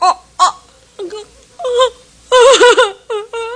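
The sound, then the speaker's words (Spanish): A woman cries and moans in a series of wavering, tearful vocal bursts separated by short gaps, the later sobs louder, longer and more broken than the first few. “Me da igual que llores o que gimas.”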